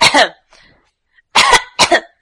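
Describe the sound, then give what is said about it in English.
Harsh coughing from one person: a few loud coughs in short, quick pairs, separated by brief pauses. A faint throat-clearing sound falls between them. “I'm sorry, do you have something to cough about?”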